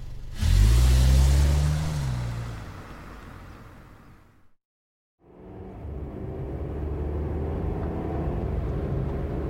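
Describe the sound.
Taxi cab driving: a loud, low engine drone with a brief revving swell at the start, then a steady rumble that cuts out for a moment before the same drone resumes.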